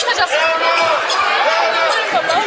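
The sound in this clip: Basketball dribbling during a women's game: a few dull ball bounces thud beneath continuous commentary and crowd babble.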